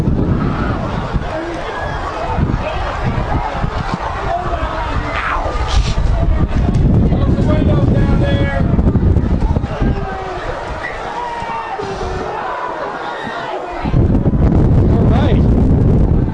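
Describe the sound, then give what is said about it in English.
Strong wind and heavy rain at an outdoor football field during a September game, a loud, continuous roar of gusting wind and downpour buffeting the microphone, with a voice talking beneath it. “Strong wind and rain here at Roger Williams Field.”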